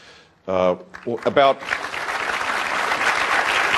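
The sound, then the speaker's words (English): Audience applause at a Republican town hall in South Carolina. A voice speaks first, then dense clapping swells and holds steadily, loud and continuous to the end. “Thank you for the round of applause.”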